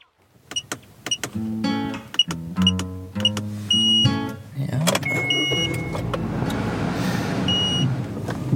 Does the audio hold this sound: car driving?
yes

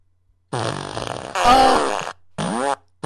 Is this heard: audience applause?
no

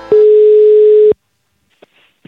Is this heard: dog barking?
no

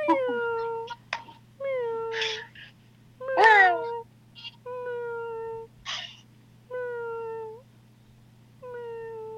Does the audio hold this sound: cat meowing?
yes

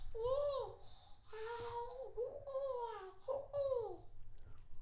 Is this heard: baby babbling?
yes

